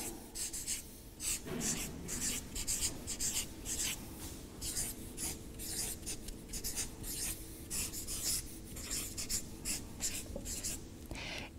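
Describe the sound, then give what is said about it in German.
A pen scratches across paper as someone writes something down, in many quick, rhythmic strokes that go on steadily throughout at a moderate level. “okay, wir schreiben es mal auf”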